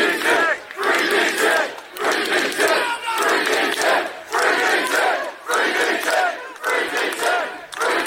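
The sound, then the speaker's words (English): A crowd of demonstrators protests an arrest outside a police centre, chanting loudly in repeated rhythmic surges of many voices with brief dips between phrases. “That was the sound of demonstrators outside the police centre protesting the arrest of Daniel Thomas, better known as Danny Tomo.”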